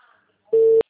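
A telephone tone while a call is being placed: a steady, single-pitched electronic tone sounds loudly for about a third of a second, breaks off briefly, then starts again. A faint murmur comes before it.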